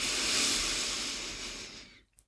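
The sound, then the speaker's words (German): A long breath exhaled through the mouth during a guided breathing exercise, a soft, breathy hiss lasting about two seconds before fading away into near silence. “den Atem halten und ausatmen über den Mund.”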